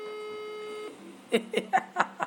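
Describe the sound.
A telephone call rings out with a steady electronic ringback tone for about a second, which then stops and gives way to a few short bursts of voice sounds on the line.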